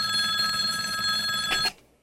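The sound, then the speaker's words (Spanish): A telephone rings in a steady, bright, trilling burst that cuts off abruptly just before the end, leaving near silence. No voices. “volvió a mirar el teléfono. Contestaré. Eso disipará sus dudas sobre mí.”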